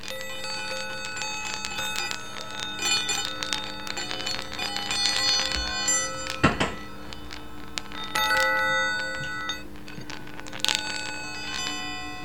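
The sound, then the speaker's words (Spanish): Bright chiming of sound balls with floating internal chimes, ringing as the balls are moved: many overlapping, sustained metallic tones with lingering resonance and a few louder strikes, with no talk. “Son unas bolas sonoras con una especie de campanas internas en flotación, no os imaginéis otras cosas. Y su sonoridad es bastante característica.”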